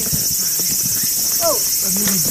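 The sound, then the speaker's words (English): A chorus of insects fills a cool mountain forest, a steady, high, shrill buzzing drone throughout, with voices talking quietly underneath. “At the top, we climb out into a cool, sweet-smelling forest. And a symphony of bugs.”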